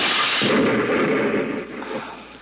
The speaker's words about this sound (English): Just one more string inside to pull... Hey, it's a firing pin of a grenade. Give me that. Look out!